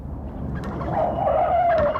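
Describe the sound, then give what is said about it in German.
A car skids on a street and runs over a hen. A rushing, noisy roar carries a wavering tire squeal that swells and then slides slightly lower in pitch toward the end. “Mein Gott, jetzt haben Sie sie platt gefahren. Fahren Sie weiter, fahren Sie weiter.”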